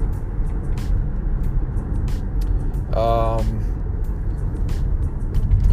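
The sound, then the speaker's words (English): Steady low road rumble of a car being driven at night, a continuous engine and tyre drone heard beneath ongoing talk. “I'm trying to drive and do this at night. Not a good combo.”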